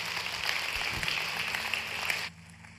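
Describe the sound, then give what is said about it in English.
Church audience applauding to welcome new members, a steady patter of many hands clapping over a low hum that stops abruptly near the end. “Can we all just put our hands together today and welcome some people into God's family?”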